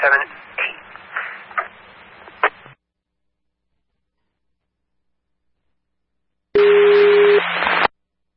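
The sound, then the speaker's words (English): Radio test tone from Pawcatuck Fire Department dispatch: a single steady tone, loud and buzzy, sounds for just over a second after a few seconds of radio voice and a pause of silence. “Lastly, dispatch on the air, testing tones for the Pawcatuck Fire Department.”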